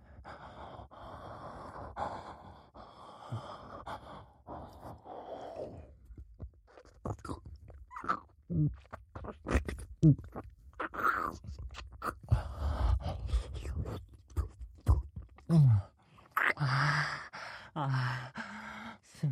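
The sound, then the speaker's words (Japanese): Wet ear licking, with irregular slurps, smacks and tongue sounds close at a listener's ear, mixed with sighs, soft gasps and breathing, alone and without talk. “この髪の毛で隠れてる綺麗な耳も たっぷり舐めてあげるからね。”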